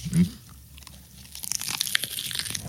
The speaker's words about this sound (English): That sounds like iceberg lettuce or something. Well, that is like majorly it. Yeah, it's a spicy chicken salad.